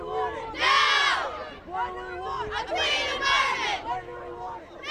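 Protesters and onlookers cheer at a youth climate march through a busy Portland street, with two big swells of shouting and whooping separated by quieter crowd chatter.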